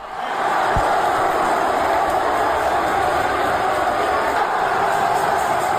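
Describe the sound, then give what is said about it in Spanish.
A crowd roars in the Roche Arena during a sports match. The roar swells up over the first half second, then holds as a loud, steady, continuous wall of massed voices and cheering. “Sonido del Roche Arena, así sonaba y así rugía el público.”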